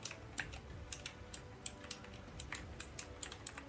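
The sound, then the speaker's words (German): Typing a message, heard as many faint, quick key clicks in an uneven, rapid rhythm, with no talk over them. “tipp, tipp, tipp, tipp. Ich muss gerade, ich google tatsächlich nicht. Ich muss gerade jemandem antworten auf WhatsApp.”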